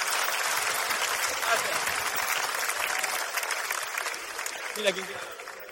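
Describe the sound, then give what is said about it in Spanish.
Audience applause, a dense, steady clatter of clapping that fills the whole stretch at an even loudness and eases slightly toward the end, with voices mingled in. “Y este aplauso es para demostrarte que estamos contigo, amiga.”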